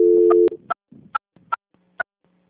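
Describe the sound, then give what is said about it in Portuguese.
A telephone line tone plays during a call transfer: a steady mid-pitched tone, then a series of short, bright beeps spaced at uneven intervals, with a low hum near the end. “só um momentinho que eu já vou transferir a ligação”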